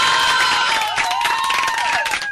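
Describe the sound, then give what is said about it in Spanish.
Audience applause and cheering at a live joke-telling show, a dense, steady wash of clapping and crowd noise that stays loud from start to finish. “Un aplauso para las mujeres, ahora un aplauso fuerte.”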